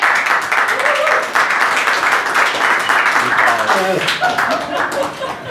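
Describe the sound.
A live audience at a satire debate night applauds to welcome two debaters. Dense, steady clapping fills the whole stretch, with a voice talking over it.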